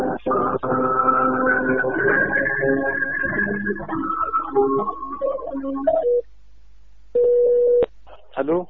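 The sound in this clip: A single short, steady mid-pitched telephone tone sounds after a call is cut off. It follows several seconds of busy harmonic sound and is then followed by a brief, faint sound.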